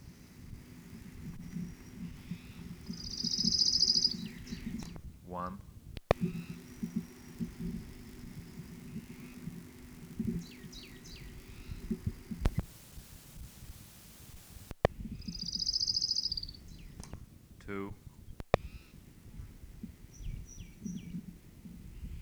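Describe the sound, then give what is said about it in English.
Orange-crowned warbler song: two high, fast trills, each about a second long and separated by a long gap. A faint low rumble runs underneath, with a few brief chirps in between. “Orange Crowned Warbler, number one.”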